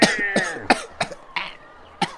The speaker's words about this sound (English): Choking me, can't breathe.